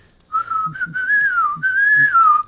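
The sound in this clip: A person whistles a familiar tune, a clear, bright melody with wavering and gliding pitch. It starts abruptly, runs almost continuously with one brief break midway, and is heard alone.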